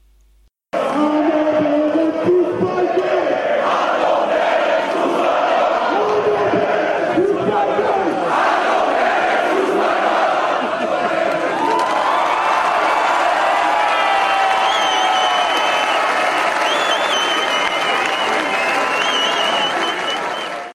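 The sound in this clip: Football fans at a Sandhausen match cheer frenetically, with loud, sustained roaring and applause that stays strong from start to finish.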